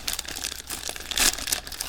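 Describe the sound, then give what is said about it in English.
Crinkling of a bag of Totis chips as it is opened: a continuous, fairly quiet papery crackle with a louder crunchy burst partway through, and no talking. “I'm gonna open up the Totis chips.”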